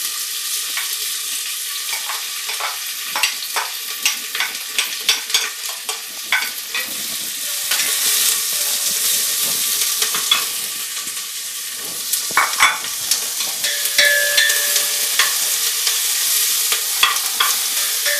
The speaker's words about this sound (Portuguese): Vou então colocar os ingredientes para o refogado.